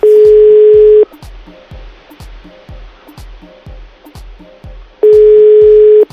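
An unanswered phone call's ringing tone sounds as two long, steady, loud tones about four seconds apart, with a low, regular thumping beat running underneath throughout.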